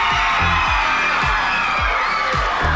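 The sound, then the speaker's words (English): A crowd roaring and cheering at the 2009 Ugly Dog contest in Sonoma County, California: a loud, continuous din with repeated shouted whoops bursting out of it every half second or so. “First-time contender Pabst looks startled by the roars from the crowd.”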